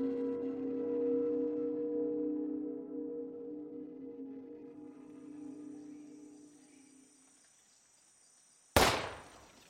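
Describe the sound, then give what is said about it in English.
A single gunshot from a hunter shooting at squirrels among trees: one sharp, loud crack near the end with a short decaying tail, after a low tonal hum that slowly fades away. “Earl's voice was overpowered by the resounding boom that echoed through the trees. In the span of 1 hour, he had wasted 4 bullets shooting at squirrels that were too fast for him.”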